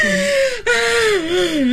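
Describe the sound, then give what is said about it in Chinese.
An old woman wails and cries, her high, wavering voice moaning in drawn-out tones with a brief catch of breath partway through. “大娘你别哭了，当心你自己的身体啊。”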